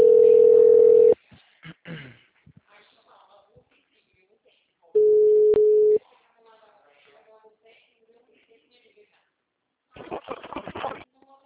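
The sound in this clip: Telephone line tones while a call is being placed: two steady, mid-pitched beeps about a second long, spaced several seconds apart. Quiet talk fills the gaps, and a louder voice comes near the end.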